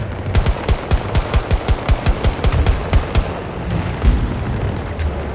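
Rapid bursts of machine-gun fire in a video game: many fast, sharp shots in a tight rhythm, loud and alone, then a quieter low rumble with one heavier thud near the end.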